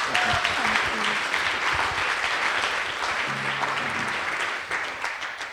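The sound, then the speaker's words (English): Sustained applause from an audience at a church gathering, welcoming a speaker onto the stage: a dense, steady wash of clapping that holds at an even level for the whole stretch with no pauses. “So please put your hands together, fresh from the Blue Peter Studios, Amy Orr Ewing.”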